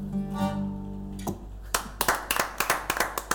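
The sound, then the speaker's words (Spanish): Rhythmic hand clapping from a small group, many sharp claps in a steady run. A held, humming tone plays before the clapping begins. “Aplausos. Tremendo, chicos. De pie, señores”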